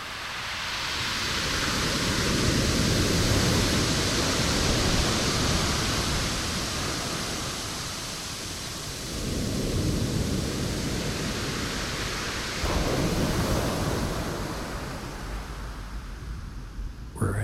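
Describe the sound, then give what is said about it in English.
Ocean surf on a driftwood beach, a broad, continuous rushing wash that swells and eases in a few slow waves, with no voices. “I'd like to share with you the sound of the most musical beach in the world to my ears.”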